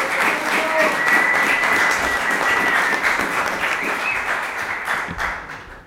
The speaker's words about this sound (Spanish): Recibimos con un gran aplauso a la banda.